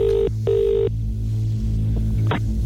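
A telephone line rings after a number is dialled for a prize giveaway call, giving one double ring of two short buzzing bursts, then a low steady hum and a single click.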